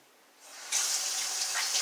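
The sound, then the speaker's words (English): Running tap water pours steadily into a sink as sticky hands are rinsed clean during baking, a soft hiss that builds at the start and then holds as a loud, even splash with no voices. “Okay, I just washed my hands.”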